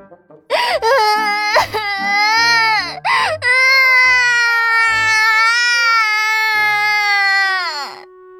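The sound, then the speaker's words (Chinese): Loud, high-pitched wailing cries from young nurses: a few short sobbing wails with brief gaps between them, then one long sustained wail lasting about four seconds that trails off at the end. “小护士的哭声此起彼伏，效果成倍增加。”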